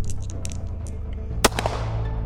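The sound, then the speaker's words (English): A single gunshot sound effect: a corporal firing his gun at a creature in a Halloween horror tale. One sharp, loud crack cuts through a steady low drone, followed by a softer brief tail. “Corporal Amos, he walks up and he points his gun at the at the Wiffid and he takes a shot at it.”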